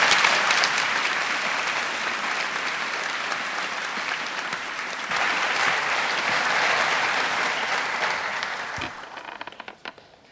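An audience applauds to welcome a professor to the stage at a university freshman assembly, with dense, sustained clapping for about nine seconds that then thins into a few scattered claps and fades out.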